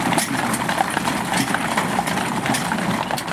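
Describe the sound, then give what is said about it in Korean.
Hoofbeats of six horses pulling an ammunition caisson along a tree-lined road covered in fallen autumn leaves at Arlington National Cemetery: rapid, continuous clip-clopping over a steady broad wash of noise. “낙엽이 수북히 쌓인 가로수 사이로 6마리의 말이 끄는 탄양마차가 나타납니다.”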